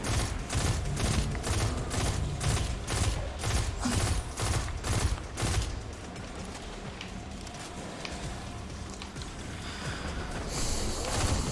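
Video game gunfire: a rapid, regular series of many sharp shots rings out loudly for about the first half, then gives way to a quieter, steadier mechanical background.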